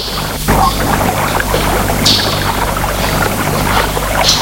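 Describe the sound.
Water on a large lake inside a cavern, a continuous wash of lapping water with a few brighter splashes standing out briefly, fairly loud and without voices.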